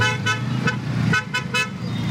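Car horns honk in traffic chaos during a summit of many heads of state, with several short, bright toots over a steady rumble of road traffic.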